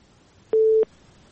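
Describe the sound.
A telephone busy signal on a call that fails to connect: a single steady low beep lasting about a third of a second, alone over faint line hiss.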